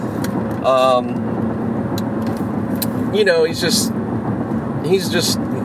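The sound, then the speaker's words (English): A motorbike passes by, a steady engine and road rumble that holds through the whole stretch, with brief voices heard over it. “Sorry, that was a bike going right past me, if you couldn't tell.”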